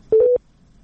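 A telephone busy tone after a caller's line has dropped: one short, steady, low-pitched beep, followed by near silence.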